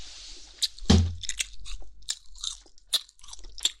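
Crunching bites and chewing of tough steamed chicken that resists the teeth, a series of crisp crackling crunches with the loudest one early, followed by smaller irregular crunches, heard alone without talk.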